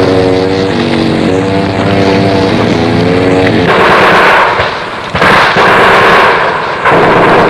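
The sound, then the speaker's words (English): Heavy gunfire in a combat zone while men with chainsaws clear a landing zone under enemy fire. A steady droning hum with rippling tones gives way to a dense, loud, continuous roar of firing with brief dips. “Very heavy fire to our front.”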